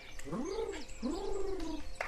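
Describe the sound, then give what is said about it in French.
A pet bird, a tame female that wanders indoors, coos twice. Each call is a smooth, low tonal note that swells, holds and eases off, and the second call is longer. “C'est vraiment l'oiseau de compagnie, quoi. Tu sais, qui vient te chercher un peu, t'ouvre ta porte, elle rentre à l'intérieur de ta maison.”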